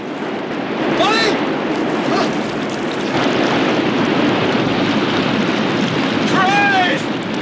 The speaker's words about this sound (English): The remaining metal kayak slides down the waterfall behind him. Limbs flail in the white water, and then a figure surfaces.